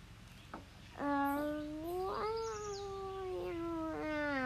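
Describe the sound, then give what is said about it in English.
A cat meows in a long, drawn-out wavering cry that holds its pitch before easing off, then begins a second meow. Both are fairly faint over a steady background hiss. “that was a cat sound. Cat sounds are great.”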